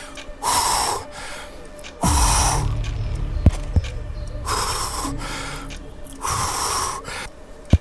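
A person gasping back to life after rescue breaths: several loud, harsh, breathy gasps in a slow uneven rhythm, with a few sharp clicks between them.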